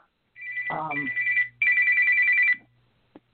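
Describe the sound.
A telephone rings in two warbling, fairly high-pitched bursts separated by a brief gap, with a voice speaking over the first ring.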